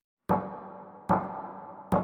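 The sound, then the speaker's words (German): Three sharp knocks, evenly spaced less than a second apart, each with a brief resonant decay against otherwise silent background. “wenn Basti mir einen heißen Kakao machen soll, dann klopf jetzt 3-mal.”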